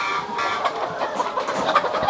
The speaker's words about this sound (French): Voilà, alors on rentre par une petite porte grillagée. Il y a beaucoup, beaucoup de poules entre nous. Donc ici, il y a 2000 poules dans ce poulailler mobile.